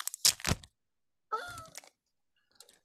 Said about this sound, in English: I have these still in their little bags and boards, so I'm going to do a little uh, ASMR here